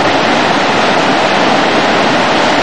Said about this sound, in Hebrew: מים זורמים פה מכל מקום, כמה מים, כמה מים.